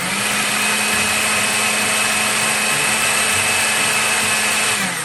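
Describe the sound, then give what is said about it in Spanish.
A blender whirs as it mixes yogurt, honey, lemon juice and vanilla into a creamy blend. The motor gives a loud, steady, even drone that runs the whole time with no talk. “Las colocamos en una licuadora junto con el yogurt, la miel, el jugo de limón y la vainilla. Y procesamos todo hasta obtener una mezcla cremosa y sin grumos.”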